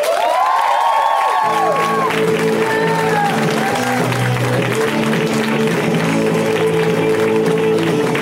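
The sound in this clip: Applause and cheering from a comedy show audience welcoming a comedian to the stage, a loud, dense wash of clapping and shouts that carries on steadily throughout.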